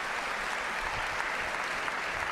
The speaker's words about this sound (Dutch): Geef een applaus aan de Heer.